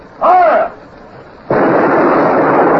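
Ship's cannons fire aboard a sailing warship that has run aground. A short shouted command comes first, then a sudden loud blast that carries on as a sustained, broad roar to the end.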